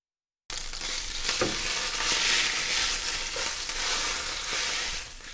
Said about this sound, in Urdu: اگر مرغی کے ٹکڑے سے نکلنے والا پانی شفاف ہو تو گوشت گل چکا ہے۔ فلے پک جائیں تو آنچ بند کر دیجیے اور انہیں فرائی پین سے باہر نکال لیجیے۔